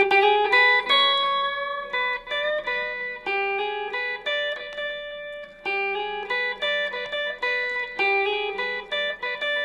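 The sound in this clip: Guitar solo built from the notes of a higher-position E chord, a run of plucked, ringing single notes in a steady rhythm, played alone.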